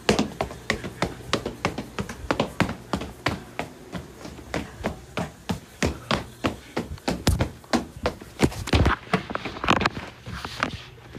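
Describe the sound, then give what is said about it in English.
Footsteps going down a flight of stairs at home, many firm, evenly spaced thuds and taps in a steady rhythm that gets slightly louder and sharper toward the end. “Let's just go downstairs. Come on, let's go downstairs.”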